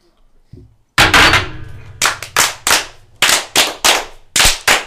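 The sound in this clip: A ceremonial rifle volley fired by Freemasons of the Grand Lodge of Connecticut: many sharp, loud cracks in ragged clusters, each shot ringing briefly before the next.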